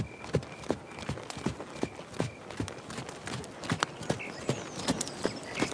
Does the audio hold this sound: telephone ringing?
no